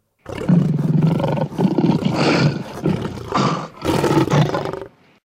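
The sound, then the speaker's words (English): Lions or tigers roar in a series of long, rough, rumbling bursts, loud and alone, with brief pauses between them. “They're lions or tigers.”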